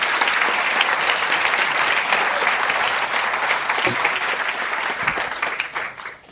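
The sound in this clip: Sustained audience applause at the Edinburgh Book Festival welcoming an author, a dense, steady wash of clapping that holds even before thinning and fading in the last second.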